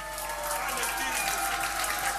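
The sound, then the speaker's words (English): An audience claps along at a live music performance, a steady, fairly quiet stream of many hands with faint sustained musical tones underneath. “If you like this music, please give us one hand clap, ajde!”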